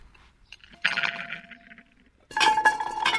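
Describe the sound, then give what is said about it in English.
Clinks and clatter as vegetables go into a cooking pot and lids are set on the pot and on a solar box cooker. A burst of rattling fades into a pause, then a second, louder run of metallic clattering follows. “And pop them in. I'm going to put the lid back on the pot, and now the lid back on the box cooker.”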